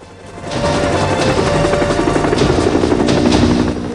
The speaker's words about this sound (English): The helicopter rises in the air.